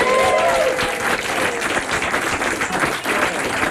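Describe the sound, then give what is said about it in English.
A studio audience bursts into sustained cheering and applause for a sound level test. Dense clapping and whoops stay loud and even from start to finish. “Let me see if we can get a test level from our audience right now for the engineers. Can you guys make some joyful noise right now?”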